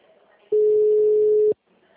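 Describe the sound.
A single steady telephone tone sounds for about one second after a dropped call. The line is otherwise quiet before and after the tone.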